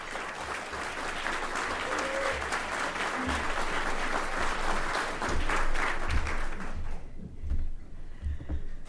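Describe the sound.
Audience applause welcoming a speaker to the podium at a lecture: dense, steady clapping that holds strongly for several seconds, then thins out near the end into scattered claps.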